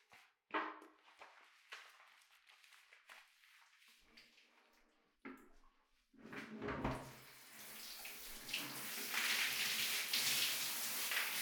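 Running water rinses someone during a bath: a few soft knocks and rustles come first, then a steady, loud rushing stream of water takes over for the second half.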